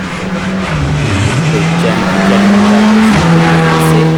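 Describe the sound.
Rally car engine on a stage of a Ligurian rally: a loud, steady mechanical drone with broad roaring noise. Its pitch dips briefly, climbs gradually, then drops off near the end.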